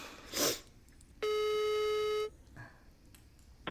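A phone call being placed produces one steady, buzzing electronic ringing tone lasting about a second, with quiet moments before and after it.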